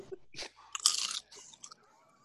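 Crunchy chewing of Cheez-It cheese crackers: a few crisp, close-together crunches, loudest and densest in the middle, then fading to softer chews, with no talking.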